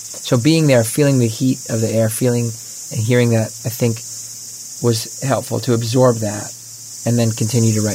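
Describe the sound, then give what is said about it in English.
Cicadas on a summer farm give a steady, high, hissing drone that runs unbroken beneath a person talking. “You hear that we're on a farm. You hear the cicadas.”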